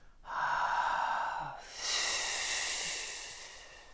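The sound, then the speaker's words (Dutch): Breath pushed out in a single continuous exhalation during a breathing exercise, first a soft breathy H hiss, then without any pause a brighter, sharper F hiss that fades slowly toward the end. “Dus het is niet de bedoeling dat je tussendoor ademt, maar je doet de H en de F op één uitademing. Nou, daar gaat hij.”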